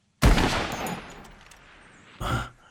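Gunshots while hunting: a loud, sharp blast with a long, decaying rumble tail, then a second, weaker crack about two seconds later.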